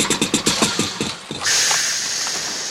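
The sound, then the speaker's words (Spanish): A lake guard's motorboat engine sputters in a run of rapid, rhythmic chugs, then catches into a steady, hissing roar that holds to the end. “En eso, viene un guardián en una lancha.”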